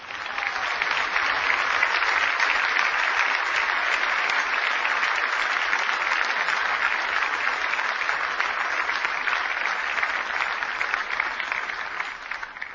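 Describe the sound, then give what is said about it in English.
An audience gives sustained applause welcoming President Barack Obama at a summit in Trinidad and Tobago, a loud, dense, even roar of clapping that holds steady throughout. “Ladies and gentlemen, will you please now welcome to address you the President of the United States of America, His Excellency Barack Obama.”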